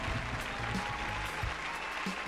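An audience applauds and cheers at a live event as the CEO of Food and Lifestyle TV is introduced, a thick, even wash of clapping that holds steady for a couple of seconds.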